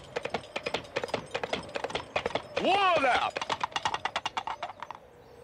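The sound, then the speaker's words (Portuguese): Coconut halves are knocked together to imitate horse hooves in a film, making a rapid, steady clip-clop of many hollow knocks that runs nearly throughout. “E é isso, o filme inteiro, todos os momentos em que deve, eles deveriam estar cavalgando, eles estão batendo coco e ninguém fala muito disso.”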